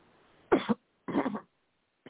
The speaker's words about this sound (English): Let me clear my throat real quick too.